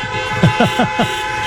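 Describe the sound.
The Cardiff bus toots its horn as it arrives in Ballina, giving four short, evenly spaced blasts in quick succession over a steady background drone.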